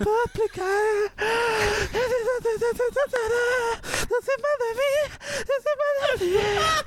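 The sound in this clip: A voice imitates a singer's asthmatic gasping, a string of short, voiced, wheezy breaths at a mid pitch that come in rapid bursts.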